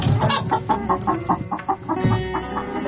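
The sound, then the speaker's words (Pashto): A hen cackling, a white hen near a garden wall: a run of short, sharp clucks repeats in a quick uneven rhythm at a steady moderate level, with no talk. “د چرګې کغاس وه”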